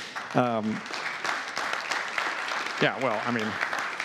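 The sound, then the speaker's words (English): Church audience clapping, a steady wash of handclaps through the whole moment with two short voiced calls rising above it. “I don't know why we're clapping that one, but I mean, just it's all about God.”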